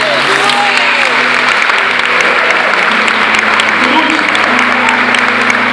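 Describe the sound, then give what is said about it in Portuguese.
Steady applause during a worship service: dense, continuous clapping that holds at an even level from start to finish, with low sustained tones underneath. “Você pode aplaudir o Senhor no seu carro.”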